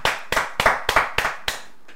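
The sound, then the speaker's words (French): A church audience claps in acclamation during a worship service, striking together in a slow, regular beat. The evenly spaced, sharp claps come about three times a second and the final one is softer. “Acclamons pour le nom du Jésus.”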